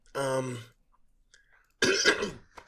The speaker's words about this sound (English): the whole interview has things caught in my throat, and I've been trying to hold it back